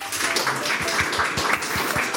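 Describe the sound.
Audience applause welcoming a Vaudois poet at a literary festival, many hands clapping in a steady, full wash with some individual claps standing out.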